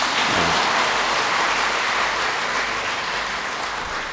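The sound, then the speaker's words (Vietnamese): Audience applause at a Buddhist Dharma talk, a dense, steady wash of many hands clapping that holds for the whole clip and eases slightly toward the end. “Vỗ tay là để chứng minh mình khỏe chứ không phải là ủng hộ ông giảng sư.”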